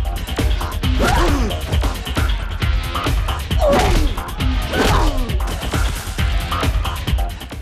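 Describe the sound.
Heavy thwacks and thuds come from a film fight in which a roundhouse kick lands on an opponent. Several sharp impacts and swishes cut through a dense, loud background.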